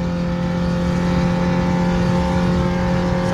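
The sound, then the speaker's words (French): Loud, steady engine drone from a Renault 5 accelerating hard in third gear at around 140 to 150 km/h, a dense, sustained mechanical roar that holds at an even level throughout. “On est déjà à 140. Pour une R5, c'est pas mal. 150.”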